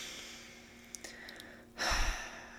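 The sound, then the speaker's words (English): A single deep breath rises abruptly in the second half as a loud, rushing breath, after a quieter stretch with only a few faint clicks. “Just the breath in your lungs in the morning. Take a big deep breath right now.”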